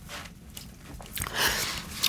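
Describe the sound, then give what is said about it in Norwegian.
Soft biting and chewing of a fresh strawberry, faint, moist and squishy mouth sounds with a few small crunchy bites toward the end. “Og nytt jordbær. Nytt jordbær med en gang. Nom, nom, nom.”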